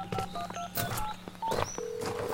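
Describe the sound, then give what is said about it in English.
A cell phone's dialing tones sound as a quick series of short electronic key beeps, followed by a steadier sustained tone, at moderate loudness among other faint noises. “Oh, I better call Jason. I'm not getting a signal on the cell phone.”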